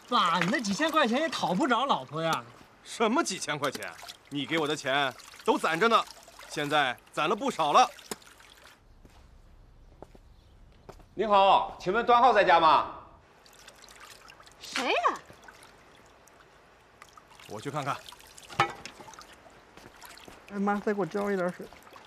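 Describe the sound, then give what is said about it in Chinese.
Water poured over a person bathing at home, trickling and splashing in the pauses between people talking. “哎妈，再给我浇一点水。”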